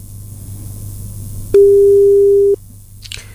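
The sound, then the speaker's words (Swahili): A telephone call tone sounds as a mobile phone call is placed: a single loud, steady electronic beep lasts about one second against faint background noise. “Mildred shika simu. Hii ni simu ya pesa inakutafuta Mildred Anyesi”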